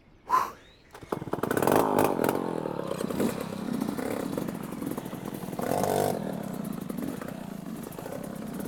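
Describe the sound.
A two-stroke motorcycle engine runs during a race, its raspy, buzzing drone starting loud just after a short knock. It holds a rough, steady tone, then surges briefly around the middle before settling again.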